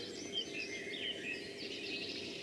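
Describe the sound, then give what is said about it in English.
A song thrush sings in the dawn chorus, with a few faint, high whistled phrases over a steady background hiss. “It's Dawn Chorus, yeah. That's its song, of course. It is its song. Song thrush. Song thrush there”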